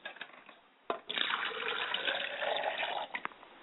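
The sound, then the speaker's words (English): Running water from a tap while someone washes their face: a steady hissing flow of about two seconds, with short splashes and knocks before and after. “I must wash my face.”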